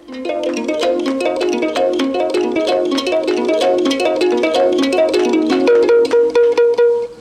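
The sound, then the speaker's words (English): A Liberian harp made of bamboo, string and a gourd plays bright, resonant plucked notes in a steady, repeating melodic pattern, loud and continuous, with the last notes ringing out more sparsely. “In my own country, Liberia, we have a harp, which we make of bamboo, string, and a gourd. It sounds like this.”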